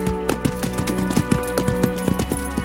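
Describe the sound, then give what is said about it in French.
Hoofbeats of a horse breaking into a short gallop across open country by a valley at sunrise, a steady, rapid thudding rhythm of many even beats. “Un petit galop !”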